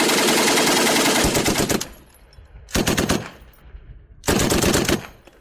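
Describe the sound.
World War I machine gun fire rattles in three separate bursts of rapid, evenly spaced shots, each loud and sharp with brief pauses between them, with no voices.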